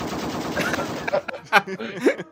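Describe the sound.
Rifle gunfire in a video game: a few sharp, loud shot bursts mixed with other game sounds over a short stretch.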